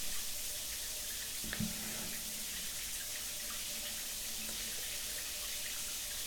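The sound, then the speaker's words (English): Steady running water while hair is washed, a constant soft hiss of flowing water that stays even throughout, quiet and with no voices. “Hey, would you like me to wash your hair? Yeah, you know I love to wash your hair.”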